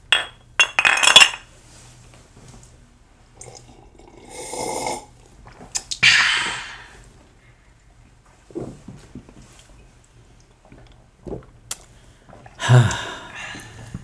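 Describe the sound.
A spoon stirs a drink in a glass, giving a few scattered, bright clinks among brief rustles and soft breathy noises, with quiet gaps in between.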